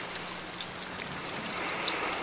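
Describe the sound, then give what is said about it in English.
Rain falling on leaves makes a steady, dense patter with an even hiss throughout. It is fairly faint, with no voices and no pauses. “the sound of the rain hitting the leaves”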